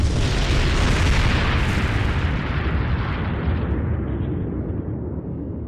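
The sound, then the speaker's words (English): A starship resembling a Constitution-class ship opens fire on Romulan vessels, and the ships explode in one loud, continuous booming roar that rumbles on for several seconds, its hiss slowly thinning toward the end. “They're opening fire on the Romulans.”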